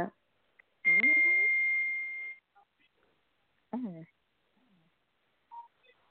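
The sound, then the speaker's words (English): An iPhone beeps on a house balcony: a steady, high electronic tone lasting about a second and a half, with brief vocal sounds around it and a few short chirps afterward. “I don't know what that was, but oh, that was my iPhone. That was my phone.”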